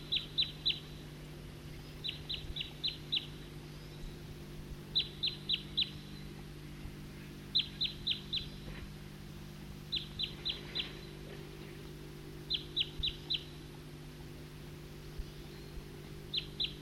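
Flight calls from a passing flock of birds of a single call type: faint, short, high chirps in tight clusters of three or four, repeating about seven times at even intervals over a low steady hum.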